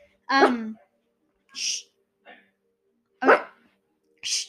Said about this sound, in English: The dogs are barking.